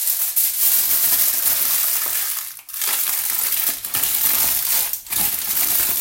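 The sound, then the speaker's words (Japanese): Aluminium foil is crumpled by hand in a bathroom, giving loud, dense crackling and crinkling that runs almost continuously, broken by a couple of very short pauses. “アルミホイルは、ちょっとくしゃくしゃにしてしまおうと思います。”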